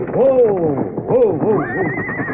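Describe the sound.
A horse neighing in a few loud, wavering whinny bursts that swoop up and down in pitch, ending on a higher, thinner drawn-out note.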